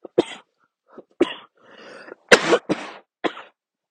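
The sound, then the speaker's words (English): A person coughs from marijuana smoke inside a car with the windows shut. Several harsh, irregular coughs come with a breathy, raspy wheeze between them, and there is no talk. “I'm sorry I'm coughing so much.”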